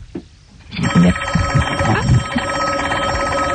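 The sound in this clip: A telephone rings with a continuous electronic warbling tone that starts after a brief quiet lead-in and holds steady and fairly loud to the end.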